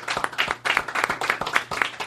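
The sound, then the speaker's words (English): Applause for a band at a live show: a busy, uneven patter of audience clapping that swells and dips in quick bursts, with no talk over it. “How about a nice round of applause for Five Guys with Instruments? Let's do it right here.”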